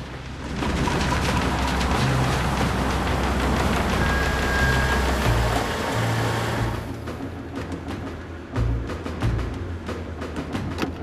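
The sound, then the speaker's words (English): Steady rain at night outside a home as a car pulls up, a dense hiss of rainfall over a low engine rumble that eases about two-thirds of the way through, leaving rain and a few scattered knocks. “It's dark and raining. They pull up outside Delmarco's home.”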